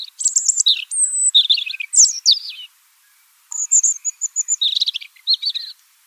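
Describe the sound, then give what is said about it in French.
A territorial songbird that feeds on the ground sings a varied, high-pitched musical song of chirps, whistles and quick trills. The phrases come in two lively bursts separated by a brief silence, with no other sounds. “Son chant musical est extrêmement varié, aigu, fait de phrases plus ou moins sonores et complexes.”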